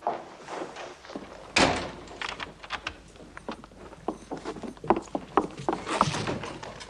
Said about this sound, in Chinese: 你把门锁上。 好。